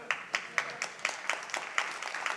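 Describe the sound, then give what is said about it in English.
A church audience claps in a steady, rhythmic beat, a run of evenly spaced, crisp claps that stay faint and even throughout. “And so, awkward church clap.”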